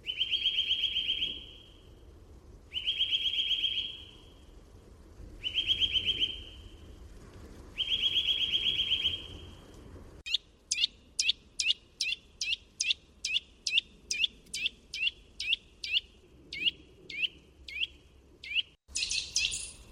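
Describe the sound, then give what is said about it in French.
Loud, liquid bird song at a steady pitch: four longer trilled phrases separated by short pauses, then a fast run of many short, clear repeated tuit notes. “Elle a un chant très puissant, constitué de tuit-tuit-tuit répétés un peu liquide, qui est rapide selon son excitation ou son inquiétude”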